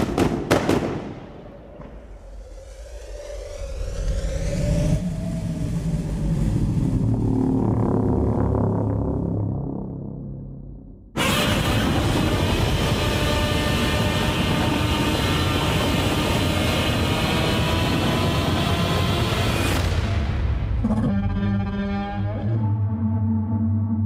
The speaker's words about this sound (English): Alright, you just listened to the trailer for Godzilla